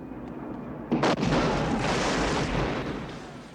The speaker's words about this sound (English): That was the house going kablooey.